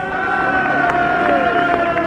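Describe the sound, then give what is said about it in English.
A crowd cheers as Joey Dunlop rides in on a 125 motorcycle after winning a race. The roar is loud and continuous from start to finish. “Sure to be a tremendous cheer here as he swings in for the third time this week as a victor, and here he comes.”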